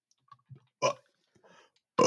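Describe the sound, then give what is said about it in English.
A short, throaty burp comes between faint mouth clicks and smacks, with a louder, fuller burst at the end. “sorry, I had a burp there.”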